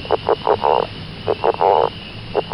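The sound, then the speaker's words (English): A male leopard frog calls in bursts: a few short croaking pulses lead into a longer, snore-like rattling croak, and the pattern repeats twice before a final short croak, with no voices. “That was the song of a male leopard frog.”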